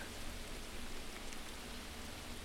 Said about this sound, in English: We got a rain monster going on. I apologize for the rain sound in the back